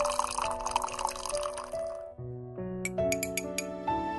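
Coffee poured into a cup: a steady stream of liquid runs for about two seconds, then several bright, ringing clinks follow over a soft tonal background.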